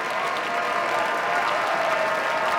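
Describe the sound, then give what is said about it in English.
Concert audience applause after a violinist's own arrangement of Schumann's Dreaming from Scenes from Childhood, played as an encore following Mozart's Fifth Violin Concerto: dense, steady clapping with no break from start to finish. “before they couldn't help and applaud at the end of Dreaming from Scenes from Childhood by Robert Schumann, Augustine Hodelink's own arrangement of that piece as an encore following his performance of the Fifth Violin Concerto by Mozart.”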